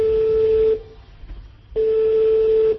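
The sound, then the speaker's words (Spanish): Telephone line tone heard while trying to place an international call to Barcelona that keeps coming back engaged. A steady, loud, mid-pitched tone sounds twice, the two long tones separated by about a second of silence. “estoy intentando hablar con Barcelona, pero me va comunicando”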